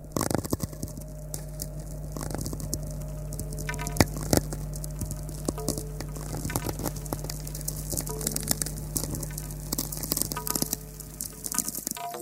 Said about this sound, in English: This is the sound of natural radio emissions from space, generated by lightning storms in the Earth's atmosphere and the sun's solar wind interacting with the magnetosphere.